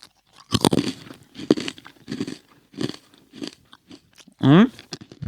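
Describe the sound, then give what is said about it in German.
Crunchy bites and chewing on food in a recording studio, a series of sharp, loud crackling bursts separated by short pauses, with no talking. “Ich versuche das mal aufzumachen. Hier. Moment. Okay, jetzt beiße ich mal rein.”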